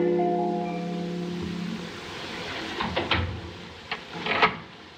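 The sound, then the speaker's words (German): A door being bolted shut gives a few sharp clacks and a scrape, heard after a low steady hum fades away. “Jetzt verriegelt auch Madame die Tür.”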